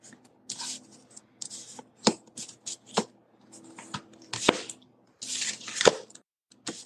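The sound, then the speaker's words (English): Oracle cards are drawn from a deck, three of them pulled: short, crisp slaps and papery rustles come in several separate bursts between quiet gaps. “So let's see what comes up for us as a collective today. All right, I'm gonna pull three.”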